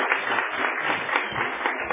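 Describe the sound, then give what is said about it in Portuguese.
Townspeople of Jaci applaud at a local political gathering, a steady, dense wash of clapping that holds at an even level throughout. “Uma salva de palmas para a população de Jaci que está aqui.”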